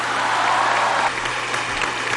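Applause from an audience at a public tribute to a minister: a thick, continuous wash of many people clapping, holding an even level for the whole stretch.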